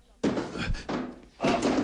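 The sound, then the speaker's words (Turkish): A foot bumps into boxes, giving three dull, hollow thumps in quick succession, each followed by a short rumbling tail. The last knock is the loudest. “Ayağımı çarptım. Bu kutular da ne?”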